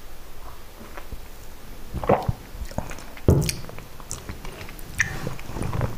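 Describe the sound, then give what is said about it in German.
Wet, irregular lapping and slurping of an animal drinking, a scatter of soft clicks and squishy sounds with a couple of louder ones, faint over a low background hiss. “Er trinkt. Das ist gut. Das ist schön, dass er trinkt.”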